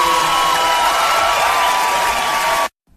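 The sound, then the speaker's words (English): A crowd cheers and applauds, a loud, dense roar of clapping with shouting voices on top, holding steady for a few seconds before cutting off abruptly into silence. “Love it. Love the crowd reaction in that way.”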